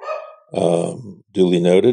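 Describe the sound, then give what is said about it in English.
A dog barks and growls in a few drawn-out, throaty vocal bursts separated by brief gaps, each loud and tonal. “I think the first move needs to make a statement. Like the dog is trying to make a statement right now.”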